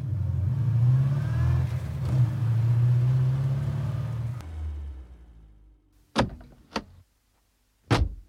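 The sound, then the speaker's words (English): A taxi's engine gives a low, steady rumble that fades away and stops, followed by three sharp, loud knocks or thumps separated by short silences. “Look, there's a taxi coming. You should get on that.”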